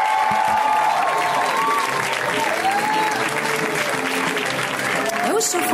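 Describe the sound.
A comedy show audience applauds loudly as a comedian is introduced, a dense and sustained sheet of clapping with voices shouting through it.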